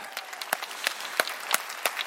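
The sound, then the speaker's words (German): Audience applause at a live show with a radio choir, orchestra and pianist, light scattered clapping with several sharp, louder claps landing at a steady, even beat. “Endstand! Applaus!”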